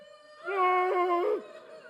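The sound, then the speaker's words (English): A human voice imitating weeping that swells into a howl, a single sustained, wavering wail that holds steady, then dips in pitch and cuts off. “Can you make a weeping sound? All right, now like upgrade it to like howl.”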